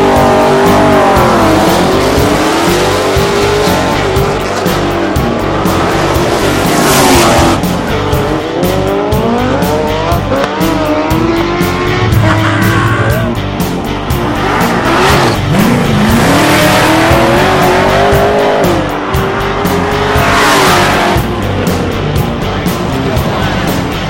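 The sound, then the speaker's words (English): Cars drag racing at night, loud engines roaring and revving in repeated sweeping surges, with tires squealing and skidding throughout a continuous, unbroken stretch of noise. “now it's nighttime, Tuesday night, time for a little drag racing.”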